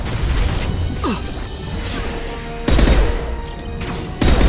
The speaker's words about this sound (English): Oh man, we're using up all these sniper bullets. Really hope it's working.